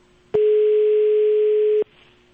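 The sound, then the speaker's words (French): Telephone dial tone sounding right after a call cuts off: a single loud, steady hum that holds for about one and a half seconds and then stops, with no voices. “Je pense que la communication s'est coupée”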